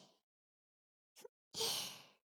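A long, audible breath out taken during a calming deep-breathing exercise, swelling quickly and fading within about a second, preceded by a short, faint breath.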